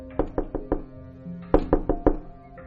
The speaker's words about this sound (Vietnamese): Lời Dương bà vừa dứt, bỗng dưng bên ngoài có tiếng gõ cửa